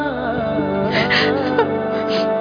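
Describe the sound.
A daughter cries in soft whimpers and sobs, with a couple of stronger catches near the middle, over a steady sustained background tone.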